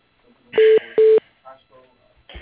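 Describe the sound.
Two loud electronic telephone tones as a call is transferred to voicemail. Each tone lasts about a quarter second with a short gap between them, and a few faint, scattered sounds follow.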